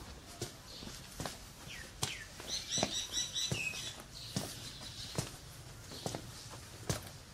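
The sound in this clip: Footsteps walking along a path, a steady series of soft crunchy steps at an even pace, with brief high chirping in the middle.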